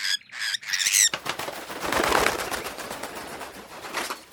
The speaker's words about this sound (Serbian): Svraka sleće do pošte i viri u poštansko sanduče da vidi da li joj je neko pisao.